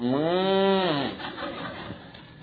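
A cow moos once, a long, low, droning call of about a second, loud and clear, followed by quieter rustling background noise.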